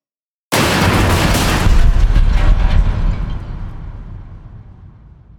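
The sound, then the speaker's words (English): Explosions as fighter craft are destroyed by cannon and turret fire. A single abrupt, loud boom swells into a dense roar and then slowly fades away over several seconds. “All the fighters that sped up and closed distance first vanish in exploding balls of light.”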